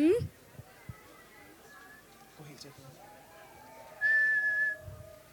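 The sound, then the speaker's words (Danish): A child whistling a clear, high, steady note held for under a second, with a brief rising whistle at the start and faint background voices between. “Lad os lige høre, hvordan fløjten kom til at lyde. Den lyder sådan her.”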